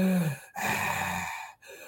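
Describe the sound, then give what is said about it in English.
A voice imitates an old man's heavy, rasping breathing: a short breath, then a long, loud exhale, then a fainter breath after a brief pause. “I could hear heavy breathing from an old man, and you could hear it like a”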